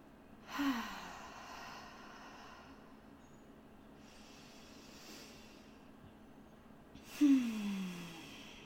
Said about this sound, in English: I'll take an inhale through the nose and exhale out the mouth or out the nose. A couple more like that.